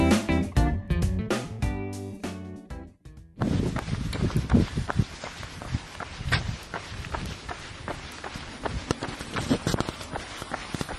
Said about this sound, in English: that is the sound of my feet running slowly as I set out on the third of my,